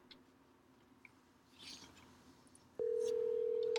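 A steady telephone tone cuts in abruptly near the end, after a long, faint and quiet stretch, as a call is dialed to connect a caller.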